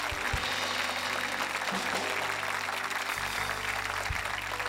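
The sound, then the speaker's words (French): Congregation applause during a church service, a dense, sustained wash of clapping that holds steady and fairly loud throughout, with a low hum beneath it. “Allez, allez, donnez-lui un 10 secondes d'ovation ce matin.”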